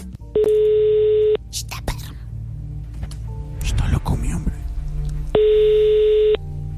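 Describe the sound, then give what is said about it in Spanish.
Telephone line tones sound as a call is placed: two steady, buzzy electronic tones of about one second each, with other noise in the gap between them. “Vamos a marcarle a Gabrielita, que está en nuestro sistema.”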